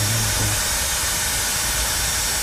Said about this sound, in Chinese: 打开 APP， 点这个喷药，开启，接着就启动了。